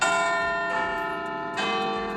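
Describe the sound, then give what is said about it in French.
The great bell of the Westminster Parliament clock tower chimes in deep, loud strikes, each ringing on with a long, shimmering resonance that overlaps the next. “Cela fait 5 ans que la cloche de Big Ben du Parlement de Westminster a retenti.”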